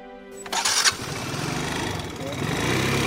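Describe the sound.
A small motorcycle engine starts with a short burst, then settles into a steady buzzing drone on a ride to a village in the Wuling mountains, with a voice speaking over it.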